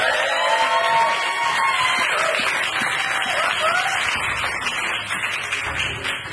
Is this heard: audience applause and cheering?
yes